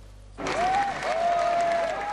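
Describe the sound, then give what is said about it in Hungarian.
Applause at a mass demonstration against Nazism as the Fidesz faction leader is greeted. Brief quiet, then steady, dense clapping sets in and holds, with a voice heard over it. “Taps fogadta a Fidesz frakció vezetőjét a tömegtüntetés a nácizmus ellen elnevezésű rendezvényen.”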